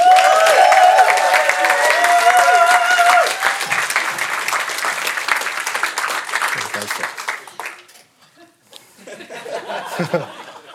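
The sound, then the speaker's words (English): Church audience clapping to welcome a reader forward, loud steady applause mixed with light chuckles that gradually thins out and nearly stops, then picks up again briefly near the end. “But I'm cautious to do that because the claps have been so poor this morning, haven't they? So I really want to encourage Yara Lees as she comes forward to read. So maybe we can just welcome Yara Lees.”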